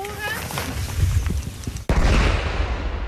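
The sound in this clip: Fireworks confiscated by police being set off for testing: a sharp, sudden bang midway through, followed by a dense, noisy crackle, with people talking over it.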